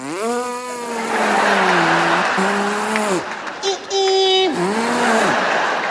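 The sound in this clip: A voice imitates a Toyota Prius accelerating onto the freeway with a sustained, wavering engine-like hum that dips and bends in pitch, breaks off briefly midway, then returns.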